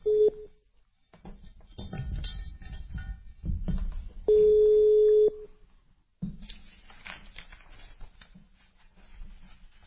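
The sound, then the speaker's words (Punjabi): Ringback tone of an outgoing telephone call: a short steady tone at the start, then after a gap of quiet line noise a second steady tone lasting about a second, with faint crackle around it. “ਮੈਂ ਤੁਹਾਨੂੰ ਕਾਲ ਕਰ ਦਿੱਤੀ ਜੇ”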